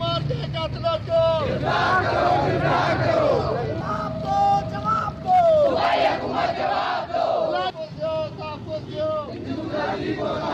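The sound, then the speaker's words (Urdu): Protesters chant slogans at a sit-in rally outside a deputy commissioner's office, protesting the killing of a Hindu trader. Loud, massed voices shout rhythmic call-and-response chants continuously. “اس موقع پر مظاہرے کے شرکا یہ نعرے لگاتے رہے۔”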